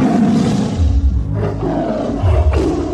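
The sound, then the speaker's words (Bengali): Tiger roaring close by: a loud, deep, rumbling roar that swells and surges repeatedly across the whole stretch, gritty and sustained. “আবার ডাকলো বাঘটা এবার খুব কাছে”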